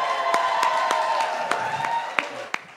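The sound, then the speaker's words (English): Applause from a live comedy-show audience, a dense wash of clapping with a few sharper claps standing out, tapering off toward the end. “Round of applause for Dan and Ariel.”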